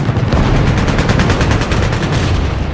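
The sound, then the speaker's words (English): Anti-aircraft gunfire from the battleship Yamato and her escorts: dense, rapid bursts of shots merge into a continuous, loud rattle that holds steady throughout. “But even as they do, U.S. planes are hit with nasty AA fire from Yamato and her remaining escorts.”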